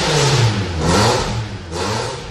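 A car engine revs loudly after its catalytic converter was stolen, leaving a gap in the exhaust. A deep, raw roar holds steady and swells in a few surges.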